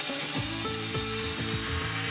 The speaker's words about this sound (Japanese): ベースとなる車に居住空間をつなげるためのカット作業を見せてもらいます。